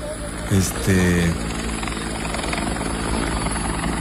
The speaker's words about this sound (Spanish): ahí está el momento del aterrizaje de emergencia. No, yo creo que en ese lugar iban ya, ¿no? Pero sí, se complicó ahí justamente la situación en el helicóptero.